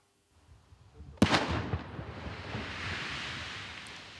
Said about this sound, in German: 3, 2, 1 und dann ein gewaltiger Knall. Im Kreis Osnabrück ist mitten auf einem Acker eine Bombe gesprengt worden.